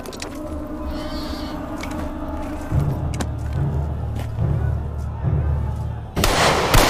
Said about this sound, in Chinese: 所以我开枪给你报个信儿